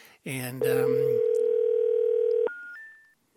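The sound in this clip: Telephone dial tone on a busy line after a dropped call, a loud steady hum holding for about two seconds after a brief voice, then ending in short higher-pitched beeps.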